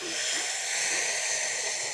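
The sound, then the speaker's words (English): A deep inhale through the mouth during a breathing exercise, heard alone as a steady, breathy hiss lasting about two seconds. “as you do, you're going to inhale through the mouth like this.”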